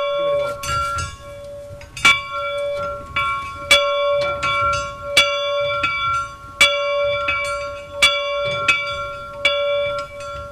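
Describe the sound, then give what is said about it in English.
An old factory bell at a distillery, once rung to call workers, is struck many times in a steady rhythm. Each loud clang carries bright, lingering metallic overtones that ring on between strikes. “This is the old factory bell here in Loch Distillery. It would call the workers to work, break for break time, lunchtime, and going home in the evenings as well.”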